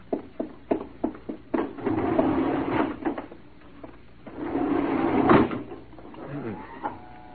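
A small automatic private elevator running from a garage to the fourth floor: several sharp clunks and knocks, then a steady mechanical whirring hum that swells louder midway before easing off.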